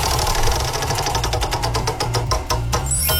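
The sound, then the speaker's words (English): A game show prize wheel spins with a fast run of ratcheting clicks that gradually spread out and slow down, held over a steady low hum throughout. “Are you going to spin the wheel for us? Let's spin the wheel.”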